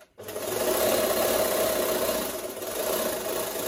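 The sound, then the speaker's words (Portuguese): A sewing machine runs in a small room used as a home sewing studio, a continuous whirring buzz that starts abruptly and holds steady and fairly loud, with no talk. “senta-se junto da máquina de costura”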